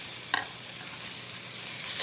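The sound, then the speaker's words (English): Onion and red bell pepper sizzle in butter in two iron skillets, a soft, steady frying hiss. A single brief clack sounds near the start. “I've got some butter going in two separate iron skillets. So I'm going to add half the onion to each one, and a bell pepper to each one,”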